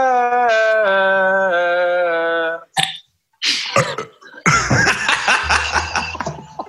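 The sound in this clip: A long, loud, voiced burp holds a steady, buzzy pitch for over two seconds. Short throaty bursts and chuckle-like sounds follow.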